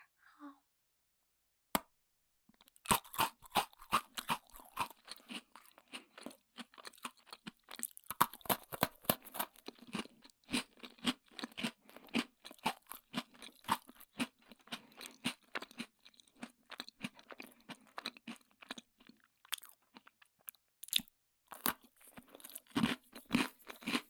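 Crunchy stick-shaped food is eaten three pieces at once: after one isolated snap, a long stretch of many rapid, dry crunches and chewing follows, loud and irregular, with brief pauses between bursts.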